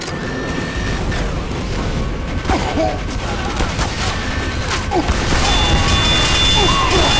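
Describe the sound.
Gunfire in a video game: dense, rapid shots and sharp impacts crackle steadily throughout, loud and continuous in a busy mix.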